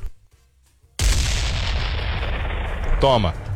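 A bomb explosion sound effect. About a second of near silence gives way to an abrupt, loud blast, followed by a long, rumbling decay and a brief vocal sound near the end.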